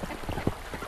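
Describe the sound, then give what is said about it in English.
Ducks quacking as they bob down a creek in Metro Denver on a snowy winter day: a few short, raspy quacks packed into under a second. “This is the sound of ducks recorded one snowy winter day. In this case, they're bobbing down a creek in Metro Denver.”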